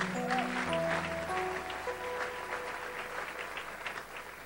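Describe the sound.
A church audience applauding, steady sustained clapping that fills the whole stretch without a break and stays fairly even in loudness from start to finish.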